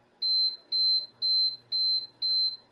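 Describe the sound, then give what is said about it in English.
An electronic countdown timer that can be set up to 60 minutes beeps as it finishes, sounding a string of identical high-pitched beeps at a steady rhythm of about two per second. “at the end, it's going to give me a little ding-ding, but it's done, and it's just a little electronic beep”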